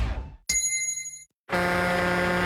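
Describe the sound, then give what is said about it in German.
A gong signals a drinking break: one bright, bell-like strike rings with steady overtones and fades over about a second, then a loud, sustained sound cuts in after a short silence. “Trinkpause. Der Gong.”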